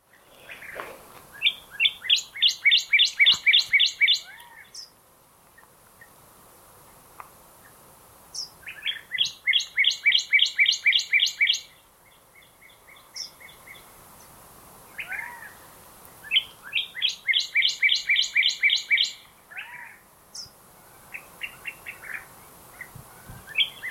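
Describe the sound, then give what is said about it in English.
House sparrow song: three bursts of rapid, high-pitched repeated chirping notes, each lasting a few seconds, separated by pauses with scattered softer calls in between. “House sparrow.”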